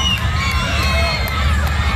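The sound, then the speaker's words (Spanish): A crowd shouts and cheers in welcome at an arrival in San Juan Bautista, Misiones, a dense, continuous and loud din of many voices with no pauses. “Griterío total en la zona de Misiones, San Juan Bautista.”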